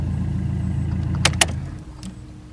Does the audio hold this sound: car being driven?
yes